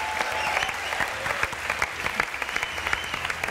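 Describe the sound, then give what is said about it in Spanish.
Applause from an audience for a saxophonist being introduced with a band, a steady wash of clapping in which individual sharp claps stand out more clearly toward the end. “Un aplauso para él.”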